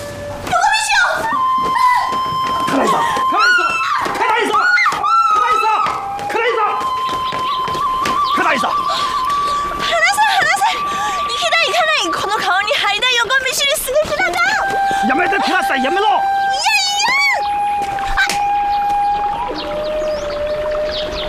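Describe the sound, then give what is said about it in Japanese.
A person cries in long, wavering, high-pitched wails broken by sobbing catches. The sound is loud and sustained throughout. “泣かないで。泣かないで。”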